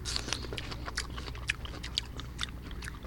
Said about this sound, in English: So now we're going to try star fruit that's not quite ripe.